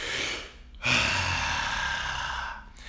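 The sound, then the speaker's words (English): A deep breath in, done as a breathing exercise, followed by a long exhale with the vocal cords engaged. It starts as a soft breathy intake, then turns into a sustained, breathy voiced hum. “So it'd be like one deep breath, and then on the way out, on the exhale, we'll activate the vocal cords. So it's basically this.”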